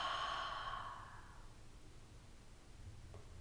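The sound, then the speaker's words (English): A deep breath is exhaled through the mouth during a guided breathing exercise. The soft, breathy rush fades over about a second and a half and is followed by quiet. “in through the nose, hold at the top, and exhale through the mouth.”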